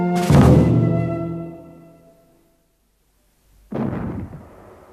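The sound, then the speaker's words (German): Two small cannons fire salute shots: a booming bang with a long ringing decay, a pause of silence, then a second bang. Both are loud and sound alone, without talk. “Zwei kleine Kanonen schossen harmlos wie ein Spielzeug zum blauen Himmel an. Beim Zeichen der Böllerschüsse”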